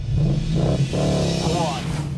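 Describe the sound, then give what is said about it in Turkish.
A car engine drones as the car pulls away from a race start, with a quick shift into second gear, a strong, steady low roar filling the short stretch. “Evet güzel kalkış. İkinci vites de tamam.”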